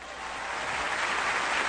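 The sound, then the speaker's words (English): Applause from the Emmys audience as Jimmy Fallon walks onto the stage: a dense, steady wash of clapping that swells slightly and holds loud throughout. “This is the sound of Jimmy Fallon walking on the stage.”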